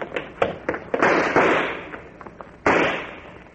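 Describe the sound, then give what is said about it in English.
Gunshots fired as covering fire in a firefight: a few sharp cracks at uneven intervals, then a longer rolling burst and one more loud report near the end. “Cover me with some shots. That'll keep their heads down.”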